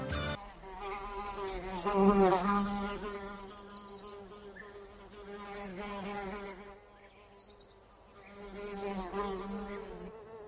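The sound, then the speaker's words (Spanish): A housefly buzzes alone in a continuous, reedy drone that swells and fades in loudness, rising to a peak early on and again near the end. “Bueno, este es el sonido de una mosca. Imaginaros esto multiplicado por miles o incluso por millones.”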